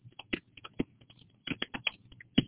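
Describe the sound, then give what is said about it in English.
Typing on a computer keyboard: a quick, irregular run of many light key clicks, fairly faint, with no voices. “I'll type this out here in the box.”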